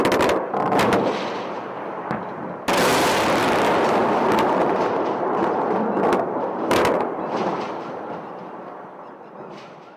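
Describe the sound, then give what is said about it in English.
Explosions from US airstrikes on Iraq during the Shock and Awe bombing: a few sharp, loud blasts break through a continuous heavy roar, which slowly fades toward the end. “the U.S. began its invasion and occupation of Iraq with massive airstrikes across the country in an operation called Shock and Awe.”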